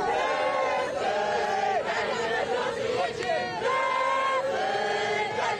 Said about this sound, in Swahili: Ni umati wa watu waliokusanyika katika uwanja wa ndege mjini Paris kumlaki kiongozi wa kanisa Katoliki duniani Papa Leo.